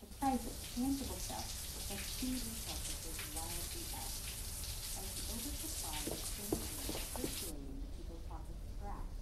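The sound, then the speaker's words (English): A shower runs in an ensuite bathroom with no one in it, giving a faint, steady hiss of spraying water whose bright top end drops away abruptly near the end. “goes to the ensuite bathroom where a shower is running, although no one is to be seen.”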